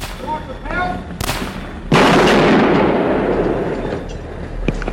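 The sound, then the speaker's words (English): Rifle shots fired by police and civilians up at the University of Texas tower during a shooting: a few sharp, loud cracks, one trailing into a long noisy rumble, with a voice talking at the start. “Police and civilians continued to fire shots up at the tower, hoping to kill the gunman, but to no avail.”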